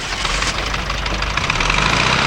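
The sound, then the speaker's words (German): A bus engine runs steadily, a loud, continuous rumbling drone with a rough, knocking texture and no pauses or voices. “Als Colby den Motor anließ, rannte Bob plötzlich zum Hänger und kletterte auf die Icarus. Sekunden später sprang er wieder ab. Redman und Colby hatten vorne im Bus nichts bemerkt und fuhren los.”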